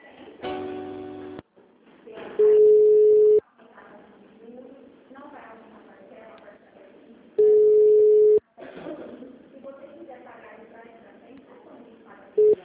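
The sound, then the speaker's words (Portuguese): A flat, loud telephone tone sounds as a phone call keeps dropping. It comes in steady beeps about a second long, spaced several seconds apart, between stretches of a person talking on the line. “caiu tá caindo de novo. A ligação. Tá caindo a ligação.”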